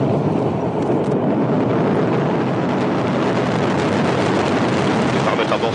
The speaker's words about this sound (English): That was the Ariane 5 rocket leaving French Guiana last week with a payload for the International Space Station.